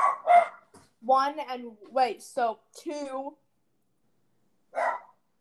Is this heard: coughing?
no

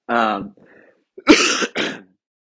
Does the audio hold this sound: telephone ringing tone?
no

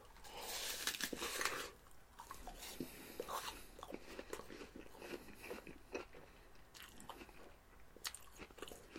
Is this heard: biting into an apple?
yes

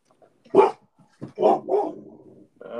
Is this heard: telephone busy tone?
no

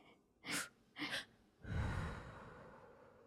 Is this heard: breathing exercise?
yes

